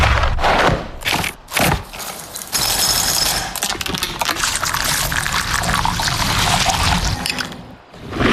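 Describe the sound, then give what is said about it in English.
Kellogg's cereal and ice-cold milk being poured into a bowl: a few short rattling bursts, then a long, steady, fairly loud splashing pour that cuts off near the end. “One-of-a-kind joy of Kellogg's cereal and ice-cold milk.”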